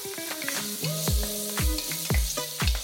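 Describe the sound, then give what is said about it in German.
Chopped onion and a garlic clove sizzle in rendered pan fat as the base of a one-pot dish: a steady, bright crackle with occasional louder spits, over a melodic background tune. “Das ganze Fett ist dann so eine richtig schöne Basis für unseren One-Pot. Eine Zwiebel habe ich hier geschnibbelt und eine Knoblauchzehe geht damit rein.”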